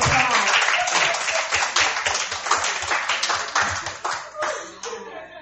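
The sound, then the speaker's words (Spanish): Church audience applauding: many hands clap in a dense burst that gradually loosens and fades, with a few scattered claps still heard near the end. “Dale un aplauso a Dios.”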